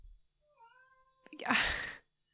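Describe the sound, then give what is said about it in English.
A pet cat meowing with a brief tonal cry, then a louder, harsher burst. It is faint overall, with no talk. “I don't know if you heard that, but she's meowing.”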